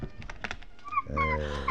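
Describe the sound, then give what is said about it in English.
A small puppy whimpers inside a box: a few soft knocks and rustles, then thin, high whining squeaks over a low, breathy tone, all fairly faint. “there's a little puppy”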